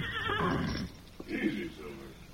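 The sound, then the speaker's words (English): A horse gives a shrill, quavering neigh, with restless horses nearby. A lower snorting whinny follows, and a brief voice is heard alongside. “Someone's nearby, Tonto, the way the horses are acting.”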